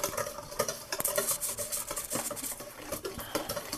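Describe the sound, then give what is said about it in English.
Whisk beating batter in a bowl, a faint, rapid scraping and clicking that continues with an uneven rhythm as clumps are worked out. “and I'm just kind of whisking it around, using my whisk to feel parts that feel like a little bit clumpy, so I get to them all.”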